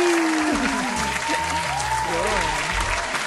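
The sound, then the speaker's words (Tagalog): Clapping and cheering to celebrate a second-year anniversary: loud, continuous applause with voices whooping and calling out over it. “Sa pang clap diyan, clap, clap, clap.”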